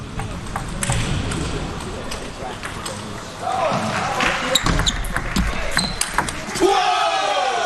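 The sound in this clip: Table tennis rally as Li Wenzheng serves and attacks against Liang Jingkun, with a run of sharp, hollow ball clicks from bounces and hits under an excited commentator's voice and a murmuring crowd.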